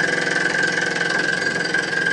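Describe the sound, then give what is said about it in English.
Rapid pneumatic pounding of an air-powered driver hammering a steel pole into the ground, a steady, dense train of mechanical blows over a continuous engine-like drone that stays even in loudness throughout. “it's just like a jackhammer, like you see them along the highway, driving that jackhammer, but it's just that air power just drives that piece of steel down into the ground”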